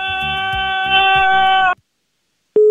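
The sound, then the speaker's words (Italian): Telephone busy tone after a caller hangs up on a live call-in, a steady single-pitched beep that starts after a sudden cutoff and a brief silence. “Ma perché buttano giù? Io non capisco.”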